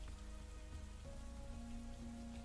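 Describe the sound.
Rain falling as a soft, steady, continuous patter at a low level, without breaks or voices.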